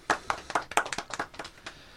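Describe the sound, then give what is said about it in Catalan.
Hand-clapping applause: a quick run of many sharp, crisp claps that peak early and thin out over two seconds, with no voices. “Un aplaudiment.”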